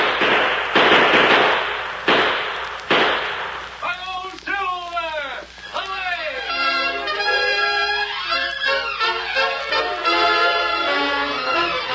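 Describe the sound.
Gunshots ring out in an old western radio drama: a few sharp, loud, cracking bangs in the opening seconds, followed by a long stretch of sustained tonal sound.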